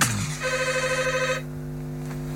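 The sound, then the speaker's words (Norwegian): A telephone rings with one warbling, trilling electronic ring burst, fairly faint, then falls silent over a steady low hum. “er telefon til deg.”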